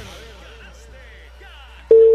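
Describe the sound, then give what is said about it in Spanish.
A telephone tone on a radio station's prize call to a listener: faint voices talk first, then a loud, steady single-pitch tone cuts in near the end and holds. “Hay llamaditas a esta hora. Estamos llamando a un caballero.”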